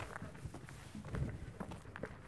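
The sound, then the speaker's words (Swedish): Footsteps of a person out for a walk past Udby, on the way to a race start. The steps land in a steady, even rhythm of moderate loudness over a low, continuous background. “Och jag tar mig en promenad här. Förbi Udby.”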